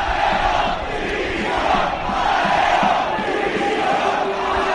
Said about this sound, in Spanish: Por segunda jornada consecutiva, la afición ha broncado a Antonio Calderón, como hemos escuchado.